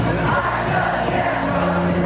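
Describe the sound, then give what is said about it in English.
A stadium crowd of about 100,000 college football fans sings their team song together, a dense, continuous roar of massed voices with faint sustained sung notes running through it. “And that's the sound of 100,000 Michigan fans singing their team song.”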